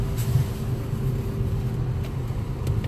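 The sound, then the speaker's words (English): A car pulling out of a back parking lot, producing a steady low engine rumble with faint road noise throughout, no talk, and a few faint clicks near the end. “I'm trying to get out of my back parking lot. I'm driving and recording.”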